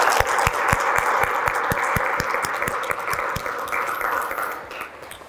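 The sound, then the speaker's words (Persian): An audience applauds, prompted by a countdown, with many hands clapping in a brisk, dense wash. Regular low thumps punctuate the first half, and the sound gradually thins and fades toward the end. “دو یک، مرسی. خودتون تشویق کنین.”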